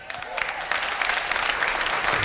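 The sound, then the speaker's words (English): Applause from a church audience after a prayer: dense, steady clapping that continues evenly for the whole stretch. “Well, they didn't clap like you're clapping.”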